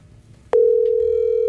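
Telephone dial tone heard while a call is being placed: a steady, loud single-pitched tone cuts in abruptly after a brief stretch of quiet low murmur and holds to the end.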